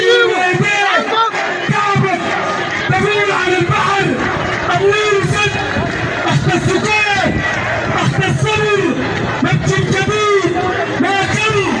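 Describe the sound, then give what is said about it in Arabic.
Protesters chant together outside a detainee's home, calling for his release. The massed voices form a loud, dense, continuous roar that carries all the way through. “كما احتشد المتظاهرون أمام منزل المعتقل أحمد الفاتح الشهير بالنانا مرددين هتافات تطالب بإطلاق سراحه.”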